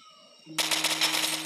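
Rapid automatic gunfire in a video game shooter: a dense, loud burst of fast, evenly spaced shots that starts abruptly after a quiet electronic hum and continues without a break to the end.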